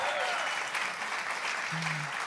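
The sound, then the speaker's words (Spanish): Church audience applauding visitors returning for a second Sunday after Easter, a steady, moderately loud patter of many hands clapping at an even level throughout. “este aplauso es para ti por volver”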